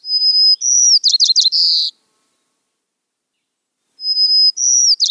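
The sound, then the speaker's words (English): A song sparrow sings twice with silence between: each song opens with high, clear whistled notes, then breaks into rapid chipping notes and a buzzy trill, and the second song is cut short. “Bird one is a song sparrow.”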